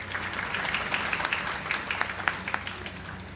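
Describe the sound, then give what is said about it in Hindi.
An audience applauds at a prize ceremony where gold medals are presented to graduates, a steady, fairly faint patter of many claps that continues evenly throughout. “तालियां बजती रहें।”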